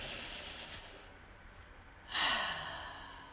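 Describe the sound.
A deep breath taken during a guided relaxation exercise: one soft, airy breath swells up after a quiet stretch and then fades slowly, with no talk.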